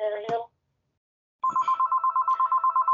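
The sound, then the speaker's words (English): A house telephone rings in a home in British Columbia. After a short voice and a pause, a steady, warbling, pulsing electronic ring sounds, clear and fairly loud. “Phone is ringing.”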